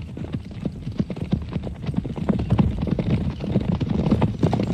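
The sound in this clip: Hooves clip-clop steadily as riders of Rohan travel on horseback toward Helm's Deep. Many overlapping hoofbeats keep a brisk, continuous galloping rhythm at a moderate level throughout.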